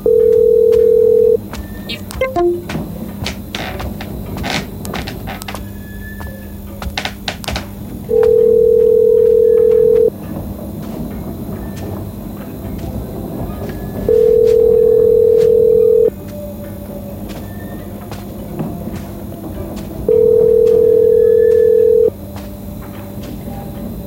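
An outgoing phone call rings with four long, steady ringback tones, evenly spaced several seconds apart, with a low background murmur and a few clicks between them.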